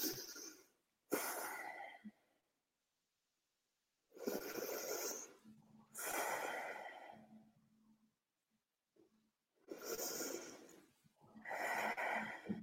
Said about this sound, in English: You can breathe like this. You can start by taking two short in, four long out.